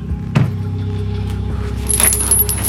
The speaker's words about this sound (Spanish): Una vez más, sacude las esposas y las cadenas, intentando liberarse, pero tampoco lo consigue.